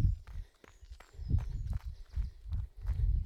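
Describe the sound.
Running footsteps on a gravel trail form a steady rhythm of low thuds, with sharp crunching scuffs on top as feet strike the loose stones. The steps are fairly quiet, and no talking is heard.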